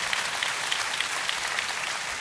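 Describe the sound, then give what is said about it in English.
A church audience breaks into steady applause, a dense, even wash of many hands clapping with no talking over it, holding at a constant level for the whole stretch. “Ladies and gentlemen, clap your hands and show your love.”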